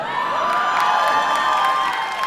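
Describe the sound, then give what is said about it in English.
Loud, sustained crowd cheering from an audience, a dense wall of shouts and whoops held at a steady level throughout, with some clapping mixed in. “But she, some applause there for making life hell for men.”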